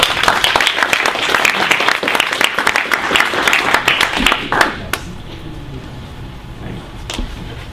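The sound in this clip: Audience applause welcoming a speaker to a talk on GNU/Linux and free software. Dense clapping runs for about five seconds, then dies away to near quiet with a few stray sounds.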